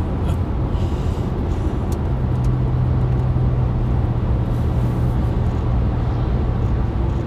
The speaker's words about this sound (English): one thing I always know I'm on a road trip is when I'm sharing the road with big tractor trailers. Just yeah. passing one now.